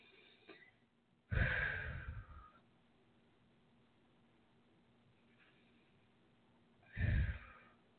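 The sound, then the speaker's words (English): Deep breathing in and out during a guided relaxation exercise: two slow, heavy breaths, the first long and drawn out, the second shorter, separated by several seconds of near silence, with no talk. “Take a couple of deep breaths in and out.”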